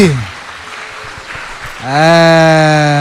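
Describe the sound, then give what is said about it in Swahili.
Applause after a school debate: dense clapping for nearly two seconds, after which a loud, sustained harmonic tone rises over it and holds to the end. “Asante. Haya, makofi.”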